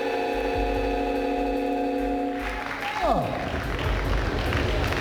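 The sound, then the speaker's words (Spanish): Applause fills the USC Arena auditorium at a Colombian presidential inauguration as the new president receives the presidential sash. A sustained droning tone comes first, then dense, continuous clapping swells in and holds to the end. “Aplauso cerrado en el auditorio USC Arena.”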